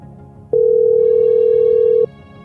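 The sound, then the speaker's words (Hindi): An unanswered phone call's ringback tone: one steady, loud electronic tone holds for about a second and a half before cutting off, over a faint low background. “अरे भैया phone भी नहीं उठा रहे।”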